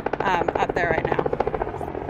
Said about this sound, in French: Celui-là, à mon avis, c'est un hélico loué par des touristes.